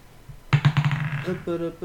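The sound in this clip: A die rolled by hand onto a table during a tabletop role-playing game clatters in a quick burst of rattling bounces that fade into a short settle, after which a voice starts speaking.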